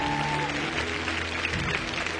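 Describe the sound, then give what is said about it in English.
A worship audience clapping hands in praise: dense, sustained applause from many people, steady and even in loudness for the whole stretch. “Give God a good hand clap of praise.”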